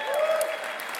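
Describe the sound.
Applause from a church audience at a morning service, welcoming first-time guests: a brief burst of clapping with a voice heard over it.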